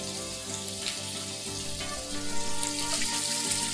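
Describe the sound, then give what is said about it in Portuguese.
Bacon sizzling and sautéing in a pan as it releases its fat: a dense, steady crackling hiss that continues without pause, with no talk. “A gente começa refogando o bacon para ele soltar gordura e consequentemente sabor.”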